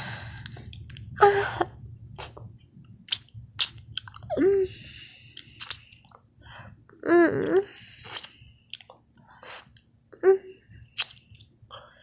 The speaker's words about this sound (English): Let me lick my fingers.